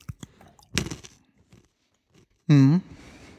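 Crunchy chewing of a peanut and pea snack mix: a few sharp bites and crunches early, then quiet chewing, followed by a brief voiced hum from the eater.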